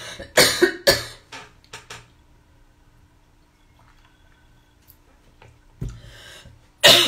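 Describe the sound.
Coughing after choking mid-speech during a live talk: a burst of several harsh, loud coughs at the start, a quiet stretch, then more coughing toward the end.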